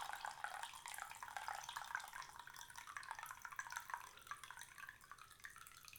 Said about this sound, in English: And we're going to pour the tea into the glass.